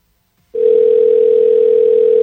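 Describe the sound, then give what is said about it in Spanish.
A steady, unbroken telephone tone plays on an outgoing call, starting abruptly after a brief silence and holding one even pitch at constant loudness to the end. “Está sonando, pero nada.”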